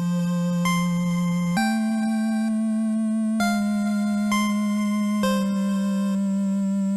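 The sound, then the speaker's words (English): Opening music from the video game Undertale: a slow, soft synth melody of long sustained notes over a steady low bass tone that shifts pitch a few times, playing alone without voices. “it's literally the first sounds you hear in Undertale”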